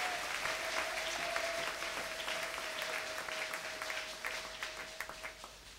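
A church audience applauds in praise during worship, with dense steady clapping that thins into more scattered claps toward the end. A faint held tone sounds underneath.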